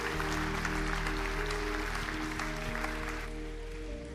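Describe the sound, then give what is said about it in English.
Applause from a church audience welcoming new members into the faith during a Sunday morning service at the Bridge, a dense, steady wash of clapping that holds evenly for about four seconds. “Hey, can we put our hands together and welcome people into God's family this morning at the Bridge?”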